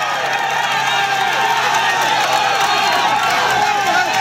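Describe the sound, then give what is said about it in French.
A large roadside crowd cheers and shouts encouragement for Ecuadorian cyclist Richard Carapaz on a climb, forming a loud, dense, continuous roar of voices and clapping with no breaks. “Et là, effectivement, il y a énormément de monde et ça encourage le coureur équatorien. Vous entendez peut-être le bruit derrière.”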